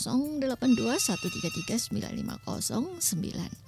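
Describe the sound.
A telephone rings with an incoming call to a radio station, a steady electronic ringing tone running beneath a person talking continuously.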